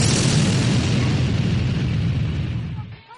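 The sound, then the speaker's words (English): A long, rumbling explosion from the video game Snatcher, loud and sustained, its deep roar slowly fading out near the end. “I'm going to explode you with 3.2 megajoules of force.”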